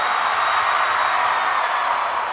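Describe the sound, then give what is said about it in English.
A concert audience of men and women cheers, mostly women's voices, in a steady, dense wash of shouts and whoops that runs unbroken through the moment. “Number one, I saw men and women cheer. Number two, I saw a lot more women than men cheer”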